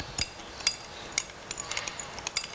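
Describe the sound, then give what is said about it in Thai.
A utensil clinks against a dish while sugar is stirred into fish sauce and lime juice. There are many light, irregular taps and clinks, fairly faint and without voices. “น้ำปลาแล้วก็น้ำตาลทรายนะคะตัดลดนิดนึงนะคะแล้วก็น้ำมะนาวนะคะคนให้น้ำตาลทรายก่อนนะคะ”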